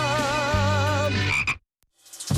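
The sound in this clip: A frog croak sound effect: one loud, buzzy croak with warbling overtones lasting about a second and a half, then a short silence before another sound begins.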